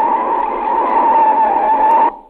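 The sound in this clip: Tyres skid as a car brakes hard, producing a loud, sustained, steady-pitched squeal that holds for about two seconds before cutting off abruptly.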